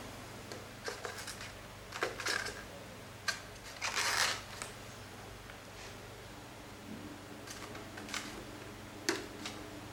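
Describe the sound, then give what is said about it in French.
Small protruding lead lengths being snipped off during the assembly of an electronics board with a potentiometer: a series of sharp, dry clicks at irregular intervals, a few louder than others, with faint rustling between and no speech. “Une fois que c'est fait, vous pouvez couper les petites longueurs qui dépassent.”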